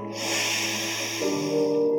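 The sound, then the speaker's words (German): Yoga breathing through the left nostril gives a long, airy, hissing breath drawn through the nose, heard over soft sustained tones underneath. “atme links aus. Atme links ein.”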